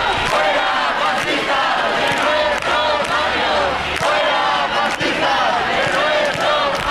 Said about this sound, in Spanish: La sentada es pacífica y se sigue escuchando, así suena la sentada en la carrera de San Jerónimo.